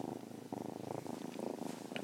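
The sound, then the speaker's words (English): A foster kitten purring: a soft, continuous rumble that pulses in quick, regular cycles. It stays faint and alone throughout, with no talk over it. “if you hear a cat purring, that's Lottie, my foster kitten.”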